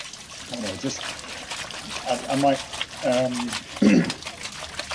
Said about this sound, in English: I might not completely remove the sound from this. I think I might keep in the background the sound of scrubbing whilst reading the psalm.